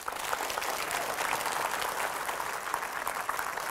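Sustained audience applause welcoming a guest to an evening show: a dense, steady patter of many clapping hands at even loudness throughout, with no voices heard.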